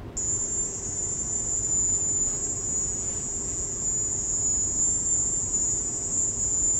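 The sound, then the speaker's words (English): A piercing, cricket-like high-pitched whine recorded inside residences in Havana holds one steady tone over a faint low rumble, unbroken for nearly seven seconds. “However, this high-pitched cricket sound seems to appear in all of them.”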